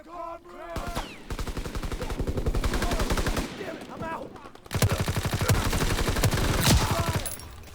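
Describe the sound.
Rapid automatic gunfire from a weapon in a video game team deathmatch, two long sustained bursts of fast, evenly pulsing shots with a brief pause between, loud and dense throughout.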